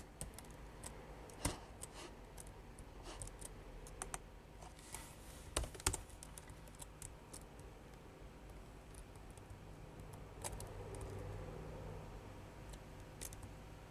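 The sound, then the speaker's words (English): Typing on a computer keyboard, with faint, irregular key clicks and occasional sharper taps scattered over a quiet background, and no voices. “I just had to type that in for her.”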